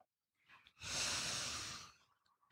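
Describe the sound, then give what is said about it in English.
A group of people in a room exhaling together, heard as one soft, breathy rush that swells and fades over about a second. A few faint small sounds come before it, and a sharp noise cuts in at the very end. “And as you're doing that, in this room, release your shoulders and exhale.”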